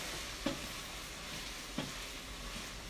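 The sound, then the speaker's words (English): Onions with sea salt sizzle steadily in oil, a continuous bright crackle as they are jiggled around the pan, with two brief knocks from stirring. “So a bit of sea salt going on the onions, and then I'll just jiggle them around. Make sure the salt's kind of all around and the oil's all around.”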